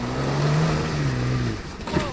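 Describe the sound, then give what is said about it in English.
A car with stability control and all-wheel drive braking hard on snow: a loud, steady engine drone with a low humming tone that cuts out partway through, followed by a brief rougher noise. “dynamic stability control, and the X-Drive work together to keep the vehicle under control, even in less than ideal driving conditions. He slams on the brakes to avoid hitting a snowbank.”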